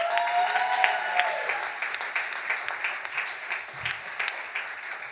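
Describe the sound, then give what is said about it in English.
Audience applause at a science comedy debate show, a steady patter of many hands clapping that slowly thins and softens, with no voices over it. “Please make some noise for Yanni.”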